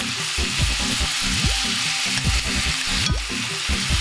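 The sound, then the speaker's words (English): About a pound of beef stew meat sautéing with onions in a pan for cholent, a steady crackling sizzle with scraping stirring strokes cutting through it at intervals. “Oh, about 1 pound of beef stew meat. And so let it saute until the meat changes its color.”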